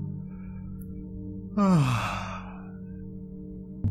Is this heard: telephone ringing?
no